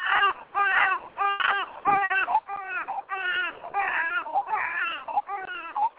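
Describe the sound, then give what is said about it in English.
Children cry in the background of a caller's phone line, sounding thin and band-limited. Loud, repeated wails and sobs rise and fall in pitch, broken only by short gaps. “Okay, well, she has a lot of some kids in the background.”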